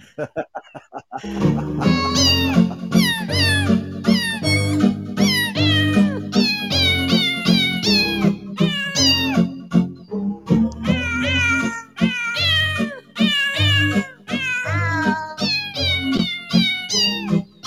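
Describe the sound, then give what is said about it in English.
Cats meowing a Christmas carol: many loud, pitched meows follow one another in a continuous sung melody, with short gaps between phrases. “They're kitty cats.”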